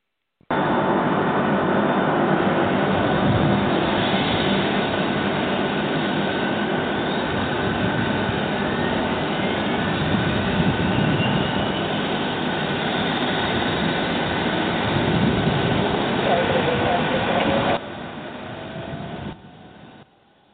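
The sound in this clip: Aircraft engine number two starting: a loud, steady roar with faint whining tones sliding upward. The level drops sharply near the end before cutting out.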